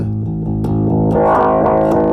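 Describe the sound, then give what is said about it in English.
Bass guitar played through a multi-wave distortion effect on its first setting gives a loud, gritty, buzzing tone. Sustained notes shift in pitch, with harsh upper harmonics that thicken toward the end. “So it's multi-wave distortion. So that's setting one.”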